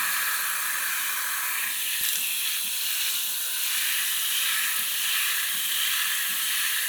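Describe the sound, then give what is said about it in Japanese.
Water runs to rinse shampoo from the back of someone's head during a bath. It is a soft, continuous hiss with faint, irregular splashes and no talking. “シャンプー目に入っちゃいますよ。後頭部も流しますね。”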